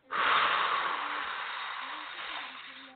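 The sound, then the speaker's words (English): A deep breath taken during a guided breathing exercise, one long airy rush that swells quickly, then eases off gradually over about three seconds. “So one more time, inhale. All of that cool, crisp, positively charged air. And exhale all of that negative energy.”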